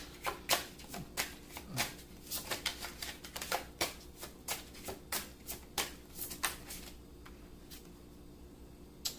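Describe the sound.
Shuffling of a tarot deck before a card is drawn for a reading: many quick, crisp riffles and soft card slaps in an uneven rhythm, fairly quiet and with no talk.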